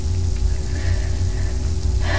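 Steady rain pattering on a surface, a dense, continuous hiss of drops at an even level with no pauses and no other sounds on top.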